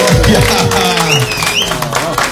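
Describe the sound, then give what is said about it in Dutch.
An audience applauds the band Black River Roots at a blues café, with a warm wash of clapping running under a man's voice talking over it. “Ik wou net zeggen, geef ze even een warm applaus, maar dat gebeurt al heel spontaan.”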